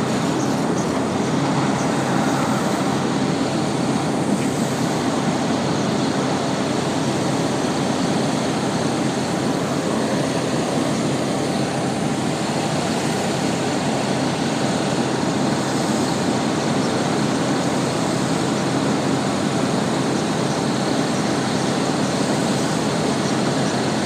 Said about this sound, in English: Here's the 7 bus, which is the one I caught down from downtown. Don't need that one, I need the 32.